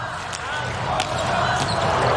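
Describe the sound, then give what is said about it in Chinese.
A volleyball serve during a match, heard as a few sharp, hollow thuds standing out from steady crowd noise and commentary. “塞门纽克的发球”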